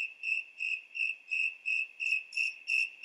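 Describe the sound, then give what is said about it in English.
Crickets chirp at night in a steady, high-pitched pulsing trill, with about eight even bursts repeating in a regular rhythm and no other sounds. “He noticed the chirping of crickets filled the night, and so talking right now just didn't feel right. It's best we let them sing.”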